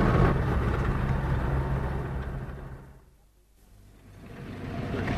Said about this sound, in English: We're driving upwards now. In fact, I've got the wheel in my hand, jumping around every now and again, but driving uphill in second gear.